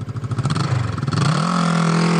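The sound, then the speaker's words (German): A trial motorcycle engine revs in quick pulsing bursts, then settles into a steady, louder drone at a slightly higher pitch. “wie bekannt ist das Geräusch? Das ist mir sehr bekannt, das ist super. Warum fährt man eigentlich so Moto-Trial?”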